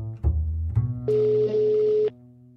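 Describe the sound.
Telephone tones as a call is placed: a few brief low beeps, then a steady, level ring tone lasting about a second, with no voices.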